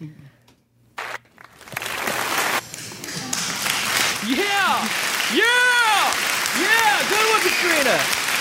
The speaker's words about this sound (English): Applause. That'll work out for now.